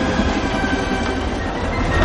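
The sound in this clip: A train moves through the desert at dawn with soldiers riding on its wagons, making a steady, continuous rumble and rattle of rolling carriages that stays loud and even throughout without a break.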